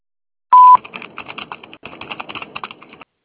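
A voicemail recording tone sounds as one loud, steady, mid-high beep lasting about a quarter second. A busy stretch of rapid clicking, crackly noise follows it on the line.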